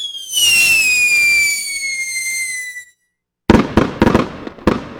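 Fireworks go off: a whistling rocket shrieks with a steadily falling pitch, then after a brief silence several sharp, loud cracks and bangs burst in quick succession.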